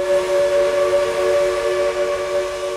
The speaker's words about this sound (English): So when you hear a steam whistle a mile away,